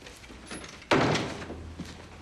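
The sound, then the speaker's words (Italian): A door is pulled shut with one loud thud, and the noise fades off afterward. No voices are heard. “Vieni, vieni, chiudi la porta.”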